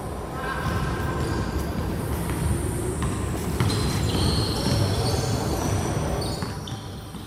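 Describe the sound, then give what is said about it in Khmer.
A basketball bounces inside the main building of an Olympic stadium. The thumps are hard to pick out within a steady, dense background din that stays loud for the whole stretch and eases slightly near the end. “ចំណែកនៅខាងក្នុងអាគារមេនៃស្តាតអូឡាំពិកមានការលេងកីឡាប្រភេទបាល់បោះ”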